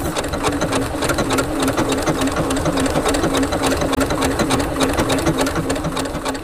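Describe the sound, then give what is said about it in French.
A sewing machine running at All Nations Healing House, a primary care centre in Williams Lake, British Columbia: a loud, steady whir with a rapid stitching clatter that continues without a break. “Cette machine à coudre là que vous entendez, elle se trouve dans un lieu auquel vous n'aurez peut-être pas nécessairement pensé. C'est un centre de soins primaires à Williams Lake en Colombie-Britannique.”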